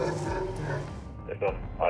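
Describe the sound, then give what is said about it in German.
Dogs bark near a parked car with a French number plate during a police vehicle check, giving a couple of short, sharp barks toward the end while people talk over them. “Die Hunde bellen, ja.”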